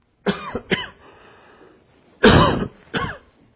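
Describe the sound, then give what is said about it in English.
Harsh throat-clearing coughs come in four separate bursts: two quick ones close together, a pause, then two more, the third loudest. Each is a rough, breathy rasp with no talk around it. “Excuse me. Had a catch in my throat.”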